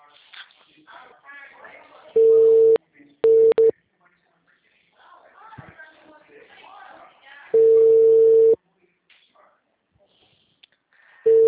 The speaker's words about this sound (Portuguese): Alô? O número está ocupado.